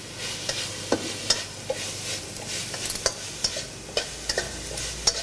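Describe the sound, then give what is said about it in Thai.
Holy basil leaves stir-fry with dried, red and green chilies for an old-style Thai dish, a steady sizzling hiss under many sharp spatula scrapes and clicks at an uneven rhythm, with no talk. “ใช้เวลาผัดอีกเล็กน้อยนะครับเราก็จะได้กะเพราพริกแห้งกะเพราโบราณของเรานะครับ”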